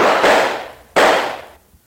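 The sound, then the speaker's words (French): Two gunshots in a staged French-language drama shootout, each a sharp, loud crack with a long fading tail. The second follows about a second after the first. “Tirez, Esteb! Tirez! Ah, j'ai eu!”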